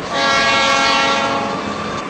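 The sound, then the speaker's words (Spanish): An old diesel train on the Roca line pulls into a station, Constitución or La Plata, with a loud, continuous rumble and a steady tonal drone held through the whole stretch. “sigue un viejo tren diésel llegando a la estación de Constitución o llegando a la estación de La Plata.”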